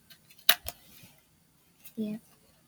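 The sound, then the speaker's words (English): Scissors cut a strip of cardboard with a couple of sharp, quick snips, followed a moment later by a short burst of a person's voice. “So what we're gonna wanna do is you're gonna wanna cut a strip of cardboard.”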